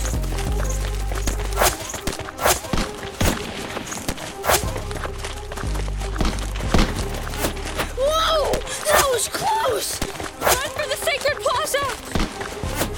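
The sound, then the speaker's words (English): Footsteps of people running in a hurried escape, many quick irregular thumps in a rapid rhythm, with voices calling out over them. “I know which way to go, but we're gonna have to run for it, okay? Whatever. Just get us out of here. Follow me, but run zigzag so it's hard to shoot us.”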